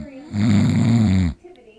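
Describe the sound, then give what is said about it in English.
A person fakes a snore: one long, rough, droning snort lasting about a second, loud and alone, then a short quiet breathy trail. “No, that was a false alarm. I was fake snoring, even though that probably sounds exactly like snoring to you.”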